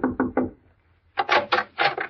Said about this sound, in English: I pulled up at the Shady Glade and knocked at the door of cabin number 4